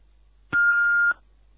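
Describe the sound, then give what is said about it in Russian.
A home answering machine's message beep: a single steady electronic tone lasting about half a second, alone against faint line hiss. “К сожалению, у нас сейчас нет дома. Оставь свое сообщение после сигнала.”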